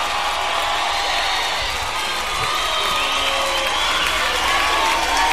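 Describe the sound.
A crowd cheers and applauds in a sustained, dense roar with scattered whoops that stays loud and even for about five seconds.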